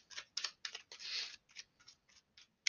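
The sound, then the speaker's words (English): Tarot cards being pulled from a deck give faint, crisp papery snaps and flicks in many quick bursts, with one longer riffle partway through. “Let me pull some cards.”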